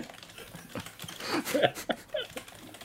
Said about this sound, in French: Vous savez très bien ce que je suis en train de taper dans Google